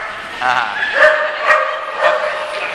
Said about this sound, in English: My dog just came in, and you might hear him barking and back by the end of the sermon.